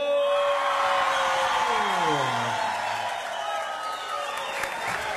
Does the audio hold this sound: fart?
no